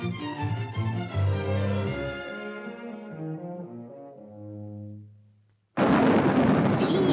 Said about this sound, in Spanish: ¡Cielo! Nunca llegaré con esta tormenta.